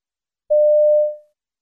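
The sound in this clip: A single answering-machine beep sounds before a message is left: one steady mid-pitched tone lasting under a second that fades out smoothly, with silence around it.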